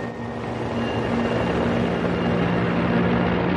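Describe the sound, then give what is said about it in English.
A bomber carrying the Fat Man atomic bomb takes off on 9 August 1945, its engines a steady, broad drone that builds gradually in loudness. “On the 9th of August 1945, the very day the USSR enters the war, the bomber carrying Fat Man takes off.”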